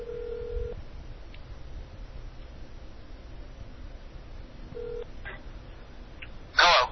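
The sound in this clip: Telephone tones come over a speakerphone, faint and thin: two short, steady low beeps several seconds apart over a quiet line hiss, a few tiny blips between them, and a brief, louder burst at the very end.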